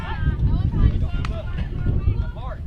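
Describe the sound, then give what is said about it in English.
Afternoon wind picks up at an outdoor softball game, buffeting the microphone as a steady low rumble beneath continuous talking. “Wind starting to pick up a little bit here this afternoon.”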